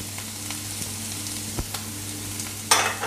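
Onions and peppers fry in a pan with a steady, crackling sizzle over a low electrical hum. Faint pops sound throughout, and a louder hiss flares up near the end.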